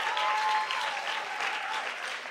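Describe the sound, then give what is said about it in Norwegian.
Audience in a hall giving extra applause to a crew at a live event, with dense, steady clapping sustained throughout at even loudness. “skal vi bare gi en ekstra applaus?”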